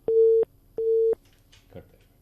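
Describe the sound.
Telephone line tone of an incoming call: two steady, mid-pitched electronic beeps of equal length, loud and evenly spaced, followed by faint brief rustling.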